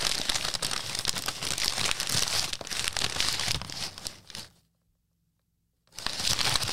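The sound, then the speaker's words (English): Crinkling of a bag holding three candles: a steady run of dense, crackly rustling that stops dead into a second or so of silence, then starts up again just as busily. “I got these yesterday. There's only three. Here's the crinkling of the bag.”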